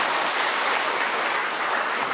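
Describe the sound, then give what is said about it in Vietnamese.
Steady, dense applause from the audience at a Catholic gathering, with many hands clapping in a continuous, even roar that stays loud from start to finish with no gaps. “cho một tràng pháo tay thưa anh chị em.”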